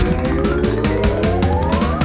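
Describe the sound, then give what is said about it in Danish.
An upbeat electronic intro jingle opens a Danish talk show about battle royale video games. It has a punchy, steady beat and a synth tone gliding upward, loud and dense throughout. “Kan jeg ikke lige få den der jingle? Ja, så kører vi så her.”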